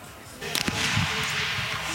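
A rifle shot fired at a shooting competition, the first shot after reloading: a brief, sharp crack stands out, then a steady wash of background noise continues.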